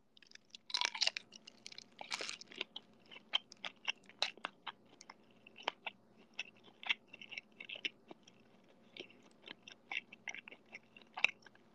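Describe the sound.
Chewing of apple chicken sausage with noodles, dipped in cottage cheese and mustard: many irregular, faint, moist crunches and smacking bites in an uneven rhythm, with no talking.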